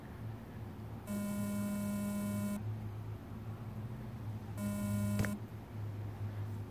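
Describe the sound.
A mobile phone beeps twice, each a steady electronic tone lasting over a second, separated by a pause, over a constant low mains hum.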